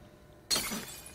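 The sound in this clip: Glass bottle thrown and shattering in a video game: after a quiet moment, one sudden bright crash of breaking glass bursts out and fades into a short, fizzing, tinkling tail.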